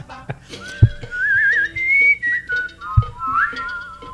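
A person whistles a reggaeton melody with sliding, wavering notes, some held and some quick, broken by short pauses, with two dull low thumps in between.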